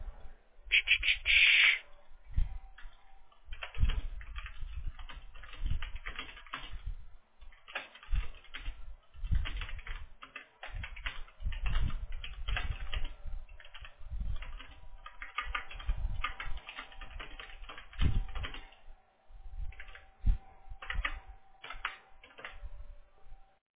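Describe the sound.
Fingers type on a computer keyboard while copying text, producing many quick, irregular key clicks in bursts separated by short pauses, faint and with no voices.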